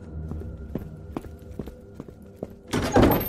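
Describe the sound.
A house door slams as someone storms out: a few dull thuds land at an uneven pace, then a loud, broad crash bursts near the end and rings briefly.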